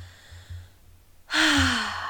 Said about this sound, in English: Taking a nice deep breath to begin